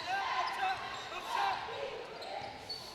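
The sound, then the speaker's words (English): Basketball dribbling during a girls' high school game on a court, soft bounces mixed into constant crowd noise and hiss, with no clearly separated thuds. “King dribbling out front, gets a pick.”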